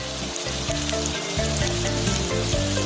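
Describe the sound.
Scallion oil simmering and sizzling in a pan with cut scallion segments, ginger chunks and shredded onion, a steady, dense frying hiss with fine crackle that holds even throughout.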